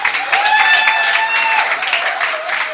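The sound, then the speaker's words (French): A church audience claps and cheers for all the countries represented at the service. The dense clapping is joined by a steady, sustained high tone that runs through the whole stretch. “Est-ce qu'on peut acclamer pour tous les pays représentés ici?”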